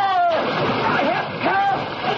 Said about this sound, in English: Push you into the river. What are you talking about? Right off the pier! No!